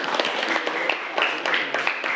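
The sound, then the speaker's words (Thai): Students applaud a classmate in a classroom with a couple of seconds of dense, scattered clapping at a moderate, fairly soft level. “ปรบมือให้กับเพื่อนด้วยนะครับนักเรียน”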